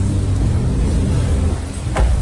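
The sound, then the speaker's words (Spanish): Someone gets into a car and shuts the door: a low, steady rumble of vehicle noise, then a single brief thud of the door near the end. “Se montó al carro y cerró la puerta.”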